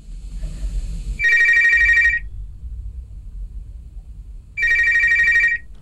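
A telephone rings in two separate bursts, each about a second of bright, trilling electronic tone, with a pause of roughly two and a half seconds between them and a low hum underneath.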